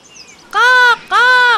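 Two loud, drawn-out crow caws with a harsh, tonal quality and a short pause between them, preceded by a faint high chirp.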